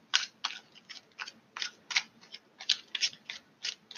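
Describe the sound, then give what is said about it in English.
Cards being pulled from a deck, heard as many quick, crisp papery snaps and flicks in an uneven rhythm, fairly faint, with no talking. “Let's pull some more cards.”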